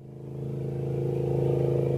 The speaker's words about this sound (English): Motorboats tow water skiers across the North Sterling Reservoir, located about a two-hour drive northeast of Denver. Waves lap the shore.